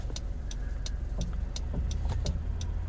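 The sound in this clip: A car drives on the road, with a steady engine hum and low rumbling road noise throughout, and faint regular ticking over the top.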